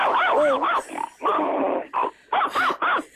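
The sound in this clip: A person imitates a dog ready to bite, voicing rough growls and snarling barks. A long opening snarl leads into a choppy series of shorter, loud growled bursts separated by brief pauses.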